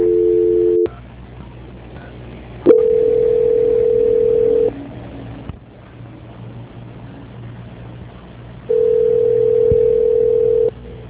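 Steady telephone line tone heard during a call transfer, sounding in three separate long stretches of an even, unchanging pitch, with a low background hum filling the gaps between them.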